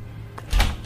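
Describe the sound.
A door being opened at a home: one dull low thud with a short rattle about halfway through, over a faint steady hum.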